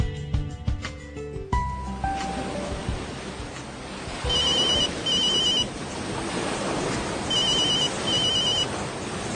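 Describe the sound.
A telephone rings in two spaced pairs of high, trilling bursts over a loud, steady rush of wind-and-rain-like noise during a storm scene. A brief run of stepping tones opens the passage. No one speaks.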